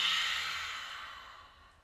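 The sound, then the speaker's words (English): A cleansing breath, drawn in through the nose and let out through the mouth, is heard as a single airy, hissing breath that fades steadily over about two seconds, with no talk. “First, let's take a cleansing breath. Inhale through your nose and exhale out your mouth.”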